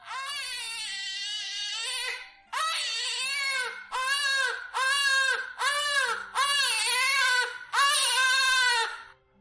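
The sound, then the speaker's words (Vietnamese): Newborn baby crying in a large family compound: a run of about seven loud, high wailing cries, each held for a second or so with short gasping breaks between them. “Một tiếng trẻ con khóc trong trẻo vang lên, giống như phúc âm trời phủ xuống, trong nháy mắt vang vọng khắp cả Lâm gia đại viện.”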